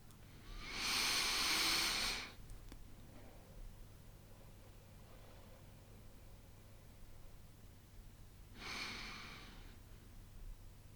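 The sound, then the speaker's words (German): Deep breaths drawn in through the nose and let out through the mouth: two soft, airy rushes of breath with a long, quiet gap between them. Both are faint, and no voice is heard. “Dann nimm einmal 3 tiefe Atemzüge durch die Nase ein und den Mund wieder aus.”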